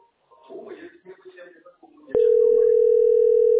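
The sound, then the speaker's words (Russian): A telephone on auto-redial gives a line tone. After brief talk and a sharp click, a steady, loud, mid-pitched tone starts abruptly and holds unbroken to the end. “Я себе поставила, думаю, что у меня телефон-то просто так с автодозвоном, пусть служит. Да, да, поэтому я здесь дозваниваюсь.”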